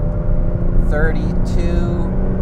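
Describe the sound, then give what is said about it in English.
A car engine drones as the car accelerates in fifth gear at about 3,600 RPM, near 75 miles an hour. A loud, steady low rumble runs throughout, with brief speech over it. “I guess I just gotta press harder on the gas pedal. Fifth gear. 3,600 RPM. Fifth gear.”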